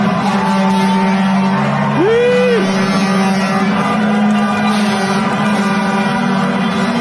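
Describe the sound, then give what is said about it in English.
Oilers fans celebrating in the street outside Rogers Place, with long blaring car horns held over a steady rumble of traffic and one short rising horn note. “And in case you weren't downtown, people were partying for all of the right reasons. This is what it sounded like last night in front of Rogers Place.”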